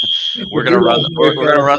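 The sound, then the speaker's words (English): A fire alarm sounding as a steady, piercing high tone that rings alone at first, then continues under a voice talking over it. “I don't know if you can hear the fire alarm going off, so apologies for that.”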